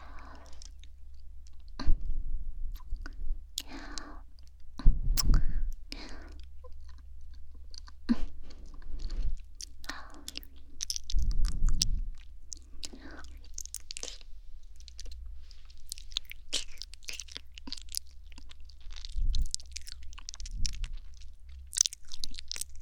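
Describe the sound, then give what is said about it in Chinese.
Close chewing of something sweet: many wet crunches and clicks, with several louder bites and quiet pauses between them. “要姐姐亲自品尝一下，看看是不是真的这么甜。”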